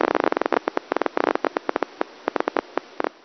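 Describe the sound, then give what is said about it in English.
Irregular nerve firing from touch receptors, played through a speaker, sounds like popcorn popping: many sharp clicks at an uneven rhythm, sometimes bunched in rapid clusters and sometimes spaced apart, with no voices. “they have a really characteristic irregular firing pattern. They sound like a popcorn popper, like this.”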